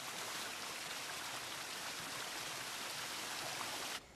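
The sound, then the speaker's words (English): A waterfall pours into a pool with a steady, dense rush of water. The hiss is broad and unbroken and holds an even loudness throughout, then drops sharply just before the end. “A waterfall pours at a pool.”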